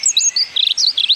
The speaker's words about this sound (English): it's a robin!